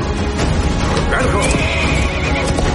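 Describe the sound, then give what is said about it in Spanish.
Horses whinny as they are let out of a barn. One drawn-out neigh rises over a dense, loud wash of clattering and background noise. “En el granero, John libera a sus caballos.”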